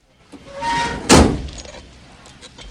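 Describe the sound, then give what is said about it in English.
A desk drawer is shut with a still-lit birthday cake inside, giving one loud, sharp thud-like slam in an office. The slam follows quieter sounds and then fades away. “wearily shuts the still-lit cake in her desk drawer”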